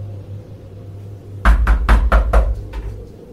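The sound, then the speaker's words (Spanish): Knocking on a door from inside a closed bedroom whose door is blocked by furniture: after a quiet stretch comes a quick burst of several sharp raps, loud and hollow, fading slightly toward the end. “Cuando tocaron por segunda vez lo notamos. Estaban tocando desde adentro de esa recámara frente a las escaleras”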